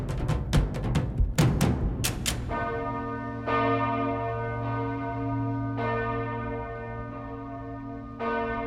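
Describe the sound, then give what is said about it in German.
Main bell of the parish church in Bühl near Baden-Baden, three tonnes of bronze, swinging and striking: a cluster of sharp clangs at first, then slower, spaced strikes over a deep, sustained ringing hum. “Die Hauptglocke der Pfarrkirche St. Peter und Paul in Bühl bei Baden-Baden. Hier schwingen 3 Tonnen Bronze und erzeugen einen ganz individuellen Klang.”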